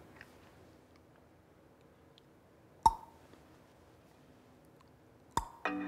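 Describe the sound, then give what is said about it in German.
Pulsar pulses picked up by the Effelsberg radio telescope: two sharp, isolated clicks spaced a few seconds apart over a faint low hiss and hum. “Was höre ich da? Hat da schon mal einer reingehorcht? Ein Pulsar, wie sich das anhört?”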